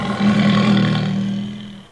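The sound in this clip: A tiger roars in one deep, rough, sustained bellow lasting under two seconds. It is loud and strongly voiced, then trails off at the end.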